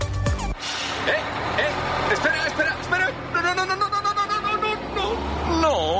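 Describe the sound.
Bus pulling away in a radio advert: a short hissing burst at the start, then a low engine rumble running steadily beneath a voice.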